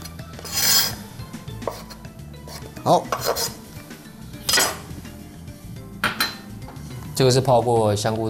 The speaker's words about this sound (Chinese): 然后木耳，很简单，我们就切稍微切块状。